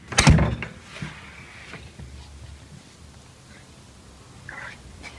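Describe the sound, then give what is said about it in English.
A yellow front door of a house opens after its locks are unbolted: one sharp clunk at the start, then only faint low rustling and quiet movement. “The door opens.”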